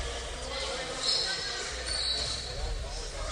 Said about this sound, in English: Bounces the basketball.